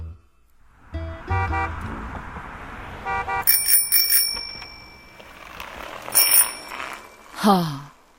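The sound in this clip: Bicycle bell ringing on a bicycle in Hong Kong, bright metallic pings in a few short bursts that stand out sharply over a quieter mix of other background sounds.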